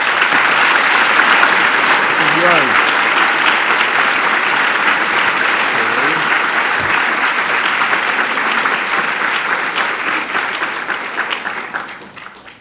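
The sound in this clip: An audience applauds to welcome a speaker, with dense, steady clapping that holds for about twelve seconds before fading out at the end.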